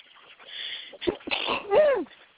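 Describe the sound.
A single sneeze from someone working on a custom toy horse figure, a short, breathy burst between softer vocal noises, with no talk.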